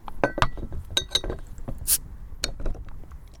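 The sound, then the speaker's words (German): A bottle of Ottakringer organic Zwickl beer is opened with a few glassy clinks and metallic clicks, then a brief sharp hiss, followed by more scattered light clinks. No voices are heard. “Ich mache mal die Flasche auf.”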